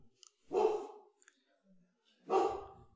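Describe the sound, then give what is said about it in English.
A pet dog barks indoors during a home conversation: two loud, sharp bark bursts about two seconds apart, with faint clicks and a soft breathy sound in the quiet gap between them. “By the way, I don't know if you can hear that, but that's just our dog. It's fine.”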